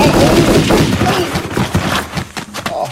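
Loud gunfire from a large, heavy-kicking gun: dense, overlapping blasts and booms that fill the whole stretch with rough, rumbling energy.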